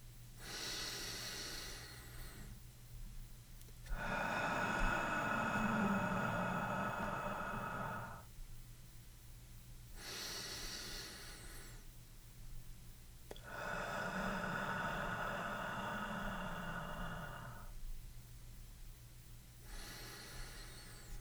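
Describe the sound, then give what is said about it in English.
Slow, deep breathing in a guided bedtime meditation: short, hissy inhales each followed by a much longer, softer exhalation, two full cycles and the start of a third, quiet and without talk. “A longer exhalation promotes calmness and works to slow down the heart rate. Breathe along with me.”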